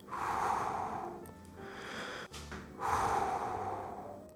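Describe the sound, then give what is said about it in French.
Deep, forceful breaths of cold air as snow falls in Marseille: a few long, loud, breathy rushes of air with no talk. “Je respire à grande bouchée, je m'en fous plein les poumons de cette sensation folle.”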